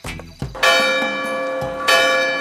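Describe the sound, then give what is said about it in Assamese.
A clock strikes two late at night with loud, resonant bell-like blows, each leaving a bright ringing tone that hangs in the air until the next strike lands. “সেয়া দুটা বাজিল”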